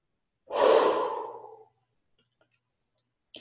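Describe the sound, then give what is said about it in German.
A person breathes out once in a long, audible exhale during a breathing exercise. The breath fades into quiet, and a few faint clicks follow near the end. “Du tust das, was leicht geht. Hauptsache, du atmest einfach aus.”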